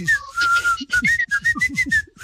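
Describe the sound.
Whistled melody from a dance song, a run of bright, high notes in short rhythmic phrases that repeats several times, clear and fairly loud.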